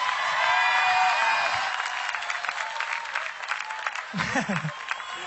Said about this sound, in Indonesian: Tepuk tangan sekali lagi untuk Iki dong.